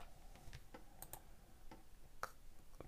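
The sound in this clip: Soft, quick keystrokes on a computer keyboard as a drug name is typed into a medical prescription app, an irregular run of faint clicks on their own with no talk.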